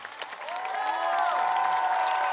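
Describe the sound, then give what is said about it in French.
Ovation with cheering from an audience at the close of a concert evening at the fifth Caravane Serail festival, clapping that swells and then holds loud and steady with voices calling out over it. “Alors, je vous demande de faire une ovation à la Mossa”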